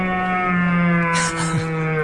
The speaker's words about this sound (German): vor allem morgens und abends röhren die Rothirsche und locken damit die ein oder andere Kuh an. Und das ist unfassbar laut.